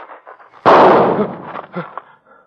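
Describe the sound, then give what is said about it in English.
A single loud pistol shot fired in a duel gives a sharp crack with a rough, decaying tail, followed by quieter low-level sounds. “Are you hit? No, I'm all right. Bullet went through my hat. It's your shot, Lieutenant Peyton.”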